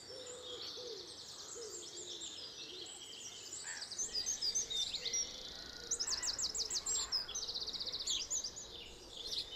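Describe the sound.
Birds squabble in a hedge with bursts of rapid, high, chattering chirps over a faint, steady background hiss, growing busier in the second half.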